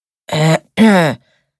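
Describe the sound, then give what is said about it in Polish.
Two short, voiced bursts of throat clearing come in quick succession, loud and guttural, with the second slightly longer than the first, and then silence. “Odchrząkuje Isaac”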